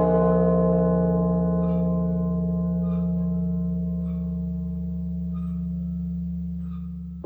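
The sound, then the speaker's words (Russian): A church bell ringing: a deep, sustained resonant tone with rich layered overtones that hums on steadily and fades only slowly, with faint, higher metallic ticks recurring at even intervals. “Знаете, друзья, когда я слышу колокол”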